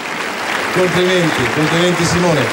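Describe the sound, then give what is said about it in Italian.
Audience applause at the Musicultura Festival, a dense, steady wash of clapping that runs the whole way through, with a voice speaking over it from partway in. “Sono circa 9 anni che cerco questo applauso”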